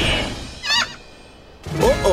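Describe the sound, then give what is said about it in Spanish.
Pelican calls at sea near dolphins and a bait ball: two short, hoarse honking squawks with a wavering pitch, separated by a quieter gap, after a brief noisy burst at the start. “¡Los pelícanos quieren participar! Ellos son aves inteligentes.”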